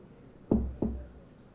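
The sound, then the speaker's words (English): Two knocks on an office door in quick succession, each a dull, low thud, followed by quiet. “Later, he knocks at the door to Steve's office.”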